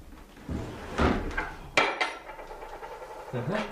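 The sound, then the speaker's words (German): A stuck drawer is tugged open in a few jerky scraping jolts and thuds with light clattering of its contents, fairly faint and uneven. “Hier ist eine Schublade geklemmt. Warten Sie, ich helfe Ihnen.”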